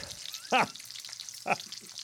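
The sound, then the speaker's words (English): Home fries sizzle in a frying pan, a steady crackling hiss of potatoes cooking, with two brief louder bursts rising above it. “All right, home fries, right? Oh, you're going to cook them?”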